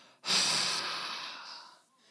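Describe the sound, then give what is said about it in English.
A single long, forceful exhale, a preacher acting out Jesus breathing on his disciples, bursting out loud and breathy, then slowly fading over about a second and a half. “And then, watch this. When he had said this, he breathed on them.”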